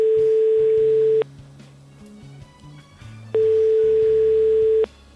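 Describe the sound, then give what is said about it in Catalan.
Telephone ringback tones as a radio host calls a listener: two long, steady, mid-pitched buzzing tones separated by a pause, over a low, shifting music bed. “Vale, truquem en David.”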